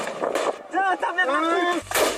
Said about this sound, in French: Allez les gars, tir de GM2A, l'objectif des manifestants.